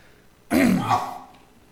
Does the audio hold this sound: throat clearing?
yes